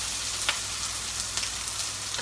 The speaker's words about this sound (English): Just gonna pop all of the ingredients together. So we have the garlic going in now.